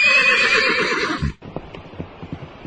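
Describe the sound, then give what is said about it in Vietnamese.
A horse harnessed to a cart lets out a loud, long, wavering neigh, then it breaks off into a run of lighter hoof clops. “Tí Hon ra lệnh cho ngựa chạy như một người đánh xe chuyên nghiệp.”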